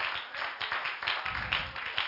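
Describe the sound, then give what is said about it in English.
A church audience claps hands in a quick, steady rhythm. The many claps are fairly faint and blend into a continuous patter over a low rumble. “Give him a hand clap.”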